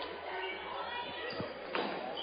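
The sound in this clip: A basketball dribbled on a court during a game: dull rhythmic bounces sit beneath a commentator's steady play-by-play talk.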